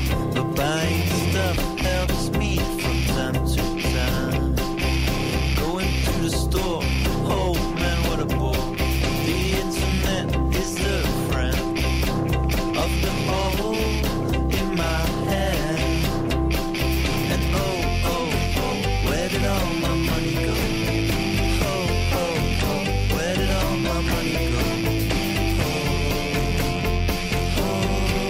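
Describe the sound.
Band music with a driving, steady beat and a repeating low bass pulse, dense and loud from start to finish with no vocals standing out.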